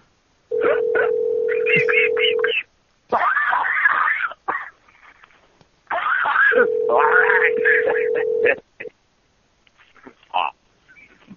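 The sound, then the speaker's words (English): Telephone ringing tone on a call placed to the UK, a steady low hum heard in two long bursts, with voices and other noises layered over and between them. “I'm just gonna call people in the UK and play that. We'll leave voicemails with that.”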